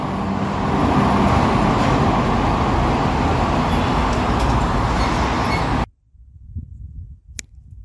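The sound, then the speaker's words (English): Street traffic on a residential road outside a home: a steady, loud roar of passing vehicles fills about six seconds, then cuts abruptly to near quiet with a few faint sounds. “Yeah, and this is the sound of the street I live in.”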